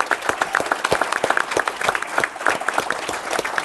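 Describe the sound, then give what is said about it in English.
Hearty audience applause welcoming a U.S. Navy and Coast Guard Reserve veteran, with many distinct hand claps in a loose, moderately loud patter that keeps an even pace throughout. “in very hearty applause for each one of them.”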